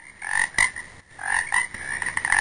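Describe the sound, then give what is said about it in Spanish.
Toads croak in a dense chorus, with repeated raspy, buzzing calls that break off briefly near the middle and then swell louder again toward the end, with no voices. “Ojo con los sapos, están en todo el lado.”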